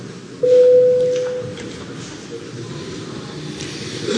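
A parliament chamber's voting bell sounds before a vote on a bill: one steady, mid-pitched tone lasting under a second that fades into a low background hum.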